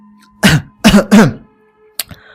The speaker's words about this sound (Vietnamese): Lúc này Mễ Trần ở một bên ho khan hai tiếng, sau đó cất lời.